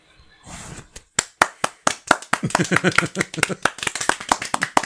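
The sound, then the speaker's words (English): Hand clapping that starts as a few sparse, separate claps and quickly builds into brisk, dense clapping, with a voice heard under the middle part. “You got that way they can tell that you're clapping for him.”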